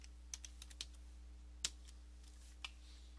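Someone types a password on a computer keyboard. A few faint, scattered keystrokes land at an irregular pace over a steady low hum, with one click standing out louder than the rest.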